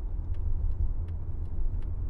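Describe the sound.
Steady low rumble of a car being driven, a smooth engine and road drone that holds an even loudness throughout with no talk.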